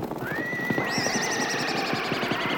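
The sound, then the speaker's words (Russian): A mustang herd takes off, with a high, drawn-out whinny ringing above a continuous patter of many rapid hoofbeats, no voices. “Мустанг встревожился и тотчас же погнал свой табун на поросшие кустами плоскогорье.”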